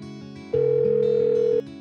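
A telephone tone sounds before a voicemail message plays: one steady, mid-pitched beep lasting about a second, rising clearly above a softer, steady background.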